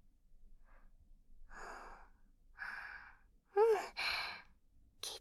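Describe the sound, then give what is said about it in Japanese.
A few slow, deep breaths of air drawn in and let out, each one separate. The later breaths are louder, and one carries a brief voiced sigh. No one talks. “私の言う通り、深呼吸してみよう。”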